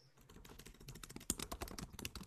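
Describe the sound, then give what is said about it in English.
Fast typing on a computer keyboard gives a quick, faint run of many clicks and key taps in an uneven rhythm, with no talk. “Someone's typing quickly. That's me.”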